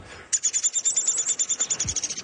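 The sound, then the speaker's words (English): A downy woodpecker's chatter on a walking trail in Edmonton: a rapid, regular run of many high-pitched notes lasts about two seconds and stays fairly loud throughout. “Downy woodpecker. He's sort of a chatter to some extent too. And the house finches are chirp here.”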